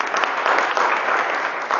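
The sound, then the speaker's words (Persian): Brief crowd applause: dense, even clapping at a steady level, with no pauses. “یه دست بزنید به افتخارش”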